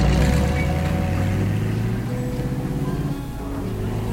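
A taxi driving off, heard as a steady low engine rumble with a faint higher whine that eases slightly toward the end.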